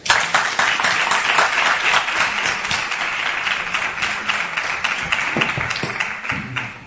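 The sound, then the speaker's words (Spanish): Audience applause fills the whole stretch, a dense, steady patter of many hands clapping that stays loud and even for about seven seconds with no voices over it. “Y solo pido un aplauso de ánimo, porque están aquí. Dicen, bueno, esto no va a quedar todo. Vamos a aplaudirlo fuerte.”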